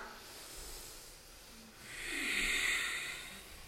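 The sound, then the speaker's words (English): A single deep breath during a guided exercise session, a faint, breathy hiss that stays low at first, swells to its peak in the latter half, then eases off. “Lower. Breath in. Breath out.”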